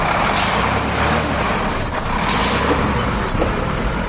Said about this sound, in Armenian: Այդ ընթացքում տասնյակից ավելի բեռներ փոխադրող մեքենաներ անցան, փորձելով շրջանցել փոսերը։